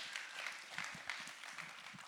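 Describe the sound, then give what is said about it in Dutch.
Applause from an audience at a church service, a faint, steady patter of many hands clapping that continues evenly throughout without voices. “Can we give Jesus another hand? Kunnen we Jezus een echt groot applaus geven?”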